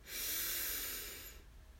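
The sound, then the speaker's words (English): A single deep breath, an airy, breathy hiss that swells and holds for about a second before fading, faint and heard on its own. “We'll start by taking three deep breaths in together. So breathe in.”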